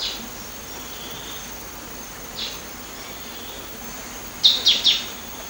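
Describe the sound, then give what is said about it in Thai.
Three quick, high chirps from a green-tailed sunbird on Doi Inthanon, a bird that feeds among flowers, sound near the end over a steady soft hiss, with one fainter call earlier. “นกกินปลีหางยาวเขียวเปรียบเสมือนอัญมณีบนดอยอินทนนท์ที่จะกระโดดอวดสีสวยไปมาตามดอกไม้เพื่อกินน้ำ”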